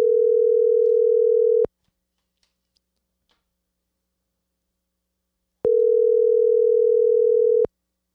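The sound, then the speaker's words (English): Telephone ringback on an outgoing call: two long, steady, low electronic rings, each about two seconds, separated by a silent gap of about four seconds. “And see, he doesn't even know I'm calling him.”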